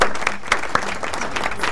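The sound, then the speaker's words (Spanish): Girls who have just played a game are applauded. Many hands clap in a brisk, busy patter, with a few sharper claps standing out from the steady roar. “Bien, chicas, aplausos para ustedes.”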